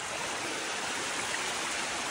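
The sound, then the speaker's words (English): Water rushes steadily through a transparent pipe as the pipe fills, making a continuous, even hiss of flowing water with no pauses or other sounds. “The water reaches a certain place and does not go further. But now we will try to make everything out of blue. It's better. You can clearly see how it goes in a transparent pipe. It is filling.”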